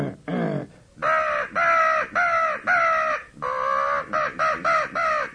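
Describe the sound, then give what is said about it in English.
A crow call blown with a grunt from the diaphragm gives a long series of loud, harsh caws, spaced evenly at first and then shorter and quicker toward the end. “And so with a little grunt in your crow call,”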